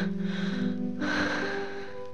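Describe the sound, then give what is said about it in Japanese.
A long exhale during a breathing exercise: a breathy rush starts suddenly midway and fades slowly over steady sustained tones. “はい、息を抜きましょう。”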